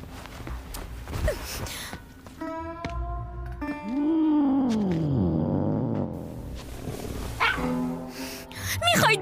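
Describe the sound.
A cat meows several times. One long, drawn-out meow arcs up and then down in pitch, and shorter, tonal cries come before and after it over faint background noise.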